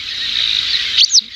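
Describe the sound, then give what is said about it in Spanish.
A Montagu's harrier gives a high, thin, chick-like call. One sustained whistling note is followed by two brief sharp chirps. “Parece un pollito, sí. El aguilucho cenizo.”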